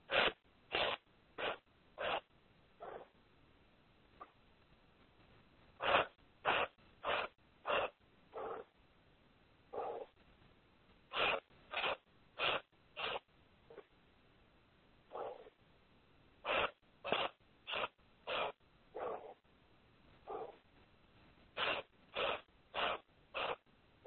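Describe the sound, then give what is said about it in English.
Sharp nasal exhales during a breathing exercise, breath pushed out through the nose in short strokes. Many quick, crisp bursts come in tight clusters with brief pauses between the groups, fairly faint and with no talking. “And then you exhale in two strokes through the nose. And you're going to do five cycles of that.”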